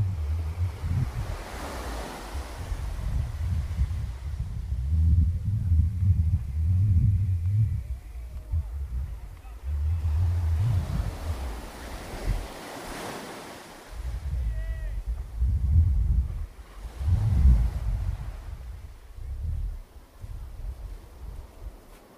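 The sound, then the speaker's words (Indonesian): Waves wash ashore in a steady series of surging swells, each one building into a low, rumbling roar and then easing back. A windy hiss runs beneath the surf throughout. “Mantep nih dengan suara airnya nih, makin jelas nih suara air.”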